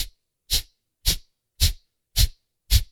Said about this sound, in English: But essentially what you're doing is forcefully exhaling out of your nose. And as you're exhaling out of your nose, your belly pulls in towards your spine.